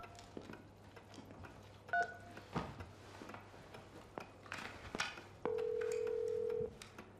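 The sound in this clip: A telephone is dialed from a table with a few soft clicks and two-tone keypad beeps, followed by one long, steady ringing tone that stops abruptly.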